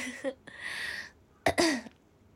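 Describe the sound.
Habitual throat clearing by a Japanese speaker: a few short, rasping bursts separated by pauses, with the last and loudest clearing carrying a voiced, grumbling tone. No talk.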